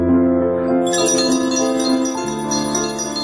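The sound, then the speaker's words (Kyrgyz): A school's last bell rings for the end of the school year, a bright, sustained ringing with rich steady overtones that shifts to a slightly lower pitch partway through. “Бүгүн өлкөнүн бардык мектептеринде дал ушундай акыркы коңгуроо кагылып”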